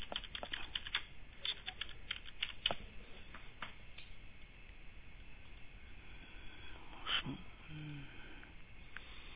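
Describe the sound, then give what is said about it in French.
Typing on a computer keyboard: irregular, faint clicks and taps from key presses, some in quick runs and others spaced apart, with no voices alongside. “Je finis de taper quelque chose, je suis à vous, d'accord?”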